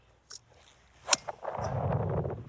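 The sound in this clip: Golf club striking the ball on a long par five, a single sharp, loud crack preceded by a faint click and followed by a broad rushing noise.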